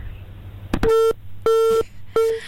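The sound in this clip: Telephone busy signal on a failed call: a click, then three steady, mid-pitched tone bursts in an even on-off rhythm, each about a third of a second long and fairly loud.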